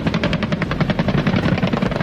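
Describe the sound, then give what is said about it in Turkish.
Rapid, steady rotor chop from military war helicopters, including a Gökbey, during an amphibious landing exercise. Dense, even pulses repeat throughout with a broad, loud engine roar and no voices. “Gökvatan'da aralarında Gökbey'in de bulunduğu savaş helikopterleri”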